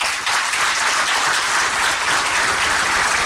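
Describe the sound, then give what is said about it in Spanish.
Sustained applause from an audience at an official agreement-signing ceremony for a road project in Loja, a dense, even wash of many hands clapping that holds steady from start to finish with no voices. “el ingeniero Manchino, prefecto de Loja, para quien pido un fuerte aplauso”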